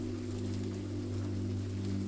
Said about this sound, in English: Rain falls on the skylights to offer the perfect sleepy soundtrack as you prepare for bed